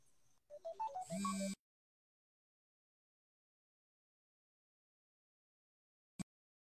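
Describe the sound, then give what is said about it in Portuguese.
An incoming-call phone ringtone plays a brief melodic run of electronic notes that stops abruptly, followed by silence and one sharp click near the end. “Entrou uma ligação aqui.”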